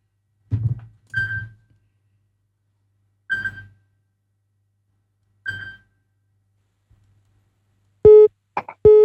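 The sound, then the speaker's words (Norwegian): Telephone ringing: four short rings spaced a second or two apart, then a few bright harmonic beeps near the end, with silence between the bursts. “Det ringer, hör vem kan det vara?”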